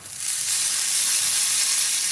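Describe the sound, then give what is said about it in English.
A tablespoon of ghee heating in a pan gives a bright, steady sizzle that swells up within the first moment and then holds as an even hiss, with no talking. “I'm heating a tablespoon of ghee.”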